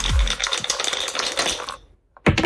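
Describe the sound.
Dice rolled during a board game rattle as a dense run of sharp clicks for under two seconds, then a short silence before a final loud clattering burst.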